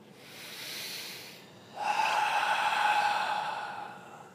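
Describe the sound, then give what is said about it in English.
Deep meditative breathing, in through the nose and out through the mouth: one soft, airy inhale, then a longer, louder hissing exhale that slowly fades, with no talk over it. “you can take a few deep breaths, breathing in deeply through the nose and out through the mouth”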